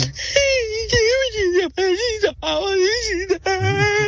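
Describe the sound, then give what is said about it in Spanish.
A voice imitates someone crying, with loud, quavering, high-pitched wails and sobbing moans broken by brief pauses. “Y comienza a voltear un lado para el otro y comienza a llorar.”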